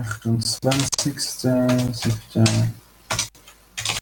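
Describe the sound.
Keyboard typing as notes are entered into a document, with quick key clicks running under a voice that talks throughout.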